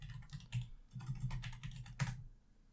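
Someone types on a computer keyboard, producing faint, quick clacking in irregular bursts of keystrokes with brief pauses between them.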